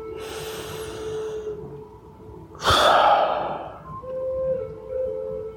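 Deliberate breathing during a calming breathing exercise: a long, airy breath gives way to one abrupt, loud, forceful rush of air, followed by quieter breathing over a faint low hum.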